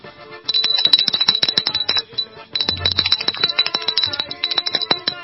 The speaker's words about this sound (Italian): Suonano la porta più di una volta.